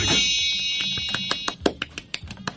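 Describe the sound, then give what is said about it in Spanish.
A wish bowl sound effect opens with a high, steady ringing tone that fades. A quick run of many sharp tapping clicks follows. “Ponchera de los deseos. ¿Quién? Así, así suena la ponchera.”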